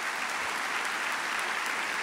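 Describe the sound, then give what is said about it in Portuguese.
Audience applause at a church service as young people stand: a steady, dense patter of many hands clapping, even in loudness throughout. “Vamos dar um aplauso.”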